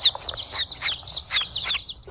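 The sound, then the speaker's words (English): Baby chicks cheeping in many rapid, thin, high-pitched peeps, each sliding downward, loud and alone with no other sounds. “Listen for the Chicks that sound exactly like this.”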